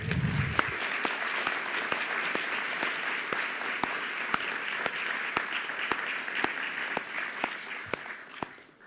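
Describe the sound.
An audience at a UTS event applauds to welcome the speakers: dense, steady clapping with scattered sharper claps standing out, holding level before tapering off at the end.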